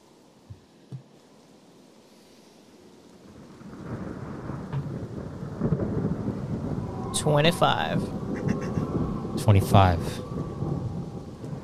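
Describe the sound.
Steady rain, used as ambience during a tabletop role-playing game session, swells in after a near-silent start, joined by low rumbling, with voices briefly heard over it.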